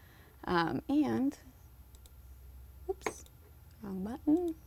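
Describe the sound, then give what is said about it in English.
A few faint, sharp computer mouse and keyboard clicks, used to duplicate an object, fall between stretches of a person talking. “So you can right-click and click duplicate, or you can just go to Control-D, and that's going to create another copy of it.”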